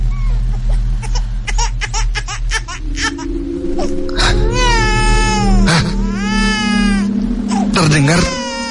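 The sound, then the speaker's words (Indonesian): A baby cries at night with loud, drawn-out wails that repeatedly rise and fall in pitch. The wails sit over a low, steady drone and follow a stretch of quick, rapid clicks. “terdengar suara bayi lagi. Suara tersebut terdengar sangat dekat denganku.”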